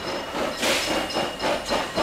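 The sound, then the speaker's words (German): A steam locomotive departs pulling a heavily loaded train, giving several rhythmic hissing chuffs of steam over a steady mechanical background. “Ein Signal ertönt und dann dampft er wieder los.”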